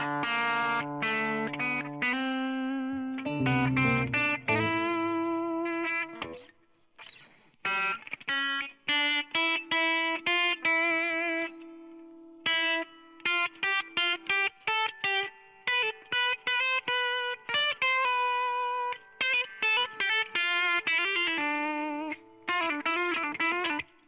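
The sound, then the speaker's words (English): Distorted guitar amplifier tones: many loud, buzzy sustained notes and chords in a steady stream, with brief gaps between phrases and no talking. “I love this amp though. It's got all kinds of good tones. Lots of cool tones.”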